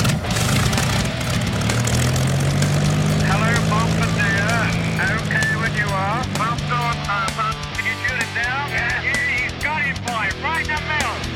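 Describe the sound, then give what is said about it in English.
Propellers turning on an Avro Lancaster bomber, its piston engines making a loud, steady, continuous roar throughout while voices talk over it. “learn about the often overlooked Avro Lancaster bomber. So let's get those props turning.”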